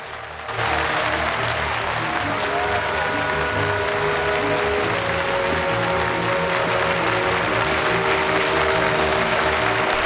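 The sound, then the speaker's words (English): A theatre audience stands and applauds. Dense, loud clapping starts abruptly and holds steady throughout as one continuous wash of many hands. “Through the mirror, the audience is seen to stand and applaud.”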